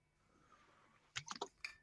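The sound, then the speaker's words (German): Handling a bottle of Rosado La Feria wine: a quiet stretch gives way to a few short, sharp clicking and clinking knocks in quick succession near the end. “Moment, da muss ich kurz die Flasche in der Hand nehmen. Und zwar Rosado La Feria.”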